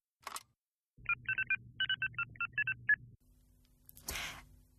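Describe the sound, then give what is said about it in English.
Touch-tone beeps sound as a telephone is dialed: a quick string of many short, even electronic tones over a low hum, with a brief click before them and a soft rushing burst after. “I'll give him a ring, see where he is.”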